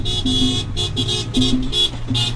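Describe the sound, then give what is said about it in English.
Car horns toot again and again from a 60-car caravan weaving through a Puerto Rican neighborhood in Orlando. Many short and longer honks come in an uneven, overlapping pattern over a low running engine hum. “A 60-car caravana weaves its way through a Puerto Rican neighborhood in Orlando.”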